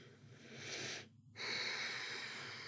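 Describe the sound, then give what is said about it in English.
Slow, deep breaths during a breathing exercise: two long, airy breaths separated by a short silent pause, each sustained and steady, with no voices. “So it's three breaths in, out, in, out, in, out. And on the fourth breath, I'd like you to hold, push the belly out”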